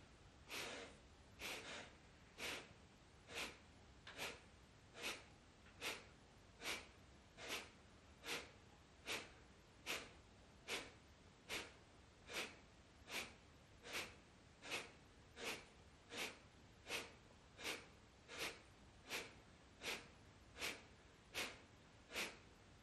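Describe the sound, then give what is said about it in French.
Kapalabhati yoga breathing: a steady, evenly spaced train of many sharp, forceful exhalations through the nose, each a short loud puff of breath with quiet pauses between. “Et on va lancer un souffle de Kapalabhati. Que des expirations. On va faire le son Om. Et là, on va commencer par un souffle de nettoyage. Donc un Kapalabhati très fort, très puissant.”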